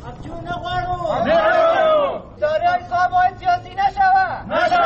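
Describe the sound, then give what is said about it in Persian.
Protesters chant at a demonstration in Kabul held by dismissed employees of the investment support agency, a crowd of voices repeating loud, rhythmic phrases in short, regular bursts. “جزئیات بیشتر در گزارش تمیم اخگر که با صدای اعتراض کننده ها آغاز می شود.”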